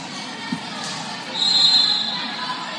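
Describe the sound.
A volleyball bounced on a gym floor before a serve in a high school girls' match gives a single soft thud over steady crowd murmur in the gym.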